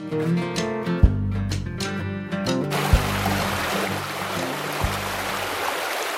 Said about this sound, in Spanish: Es la historia de quien busca el cauce, siguiendo el sonido del agua que oímos correr.